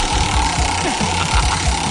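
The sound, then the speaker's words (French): A prize wheel spun hard by hand during a studio game, giving a steady, loud rumbling whir with low throbbing pulses that run unbroken for the whole two seconds. “faire tourner de toutes ses forces la roue des cadeaux”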